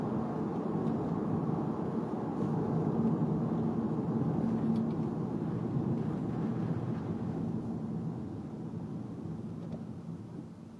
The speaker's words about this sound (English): It's raining out here. Not super hard, but hard enough.